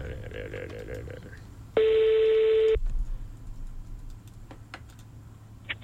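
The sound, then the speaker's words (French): A single ring tone sounds on a telephone line while a call is placed, one steady, even tone lasting about a second, with faint clicks before and after. “Ok, ça sonne, on y va.”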